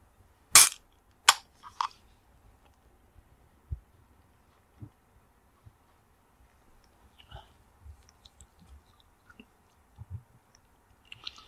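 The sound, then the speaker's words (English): Three sharp, loud gunshots in quick succession from a space pirate firing on soldiers from behind, followed by scattered faint clicks and soft low thumps with no voices. “A pirate shoot the soldiers in the back. Soba's shot.”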